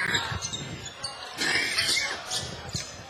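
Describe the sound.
A basketball is dribbled on the court during a high school boys' game, Bellmont at Adams Central, with several bounces sounding under ongoing talk.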